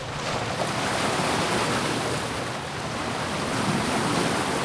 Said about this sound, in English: For us, this is the sound of the sea.